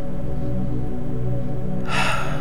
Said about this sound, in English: Start to focus on your breath. Beautiful, deep, nourishing breaths in.